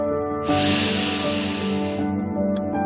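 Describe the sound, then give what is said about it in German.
One long, deep, airy breath during an evening meditation, a soft rushing hiss that lasts about a second and a half over a quiet, steady tonal drone. “jetzt einmal ein paar tiefe Atemzüge. Atme ein und aus.”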